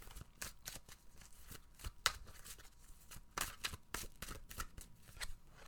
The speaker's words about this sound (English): Okay, now that we are done with that, let's pull a card for the week.